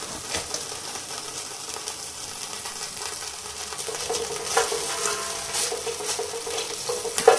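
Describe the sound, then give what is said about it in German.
Oil sizzles and crackles softly as it heats in a pan with a sieve set on top, a steady hiss scattered with small pops and clicks and no talk. “So, dann setze ich das eben wieder auf. Auf dem Sieb. Tue wieder ein bisschen Öl da rein, dass das wieder schön heiß wird.”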